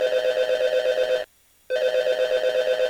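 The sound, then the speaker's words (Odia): Telephone ringing as a caller dials in: a steady, pulsing electronic ring in two bursts separated by a short silence, with no voices over it. “ଆମର କେଉଁ ଶ୍ରୋତା ଜଣକ dial କଲେଣି ring ring ring.”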